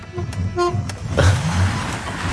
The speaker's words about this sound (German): Schwalbe an. Hupe funktioniert.